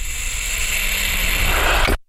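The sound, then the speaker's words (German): A door opening, heard as a loud, steady mechanical rushing hiss that holds for about two seconds and then cuts off abruptly. “Ich öffne die Tür und bin im Korridor.”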